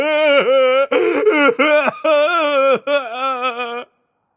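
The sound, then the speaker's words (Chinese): A man crying loudly, with several sustained, high, wailing bursts of sobbing broken by short catches of breath, ending abruptly. “刹那间所有的金子全部消失，舞台上马里奥的哭声更大了。”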